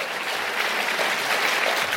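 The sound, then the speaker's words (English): Round of applause from an audience at a political talk, a dense, steady wash of many hands clapping that holds at an even level for the whole stretch. “No, give yourself a round of applause.”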